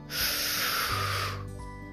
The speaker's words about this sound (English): And try to have your exhale be a little bit longer than your inhale. So basically you would breathe in